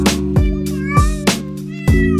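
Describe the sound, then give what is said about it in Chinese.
A cat meows five times in a loose, uneven rhythm, each call short, bright and slightly bending in pitch, heard over a steady tonal hum. “我舍不得这一只猫”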